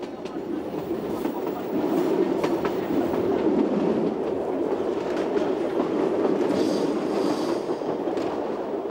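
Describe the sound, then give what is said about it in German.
A train rumbles steadily as it pulls into the only junction station on an island's railway line. A continuous low rolling roar carries faint rhythmic clicks throughout. “Wir fahren ein in Pontelleccia, das ist der einzige Knotenpunkt dieser Bahn.”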